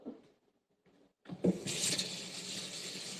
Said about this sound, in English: Okay, wash, wash, wash. Washing the first layer of vegetables, which is bean sprouts. Into the pot you go.